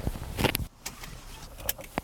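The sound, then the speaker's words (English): A truck door closes with a solid thunk: a cluster of sharp clunks ends in an abrupt drop in level, followed by a few quieter knocks and handling noises. “I am pleased with the door closing. I like that. It's solid. It's got a thunk.”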